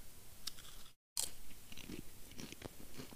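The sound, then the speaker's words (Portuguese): Chewing and crunching on a salty snack: many soft, irregular, crisp crunches, quiet and close, with a brief break in the sound and no talking. “Podcast jantando. Jantando salgadinho.”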